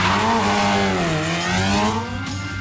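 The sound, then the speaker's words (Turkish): Race car engines roar while two cars spin out during a race, tires squealing. The engine drone is loud and continuous, its pitch dipping and rising again, and a thin high squeal appears near the end. “İkisi de spin atıyor. Lauda ters yöne bakıyor şu an.”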